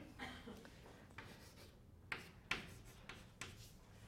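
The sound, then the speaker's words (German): Faint scratching strokes of an equation being written by hand, several short bursts of rubbing friction at irregular intervals over a quiet background. “ich schreibe einfach jetzt diese Gleichung ab”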